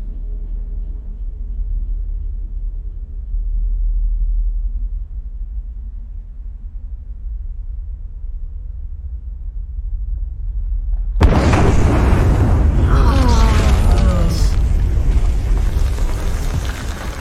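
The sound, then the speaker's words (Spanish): The crater of Volcán de Fuego bursting in an eruption: a steady low rumble runs for a long stretch, then a sudden loud blast opens into a sustained roaring wash of noise. “El cráter del volcán de fuego se rompe.”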